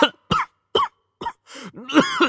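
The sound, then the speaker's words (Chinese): Violent coughing right after a bout of laughter: a few sharp, harsh cough bursts separated by short gaps, then a longer, strained, voiced stretch of coughing, loud and without talk. “他一大笑就剧烈的咳嗽，苍白面孔涨得通红，几乎咳出血来。”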